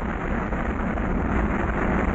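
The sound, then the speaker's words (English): Apollo 11 rocket engines roar at liftoff as a dense, steady rumbling blast of noise, loud and unbroken throughout with no voices heard. “All engine running. Liftoff. We have a liftoff. 32 minutes past the hour. Liftoff on Apollo 11.”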